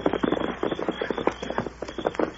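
Galloping horse hooves as a radio drama sound effect, a rapid, driving drumming of hoofbeats that keeps an even rhythm for a couple of seconds.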